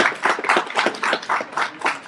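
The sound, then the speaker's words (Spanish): Audience claps for a guest at a comics talk: many quick claps fall into a loose, pulsing rhythm, with bursts swelling and easing in regular waves at a fairly loud level. “un aplauso por favor para Carmix”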